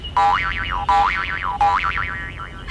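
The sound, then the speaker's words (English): A cartoon boing effect for a hopping kangaroo sounds three times, each a loud springy twang with a wobbling, warbling pitch that quivers up and down before fading into the next hop. “These big roos can kick while they hop.”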